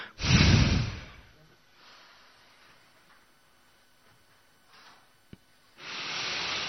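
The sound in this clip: Forceful exhales from a breathing exercise: a strong, noisy rush of breath at the start, then near-silence, then another forceful breath beginning just before the end.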